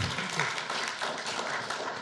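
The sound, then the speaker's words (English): An audience applauds to welcome a speaker, with dense, steady clapping that holds at an even level throughout. “Please give him a hand. Welcome him.”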